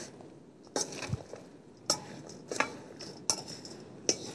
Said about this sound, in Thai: เพราะเกลือมันซึมทำให้ซึมด้วยนะ แล้วก็คลุกเคล้านะคะให้ส่วนผสมเข้ากัน